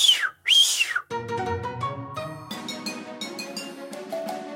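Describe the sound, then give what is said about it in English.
Two shrill, arching whistle notes from a sheepdog handler's run whistle, used to keep the dog coming during a sheepdog trial, are followed by a longer stretch of steady, stepped pitched tones. “When you're under a sheepdog trialing situation, the dog has to respond to every little whistle stop command that you give that dog. I have a run whistle, which is”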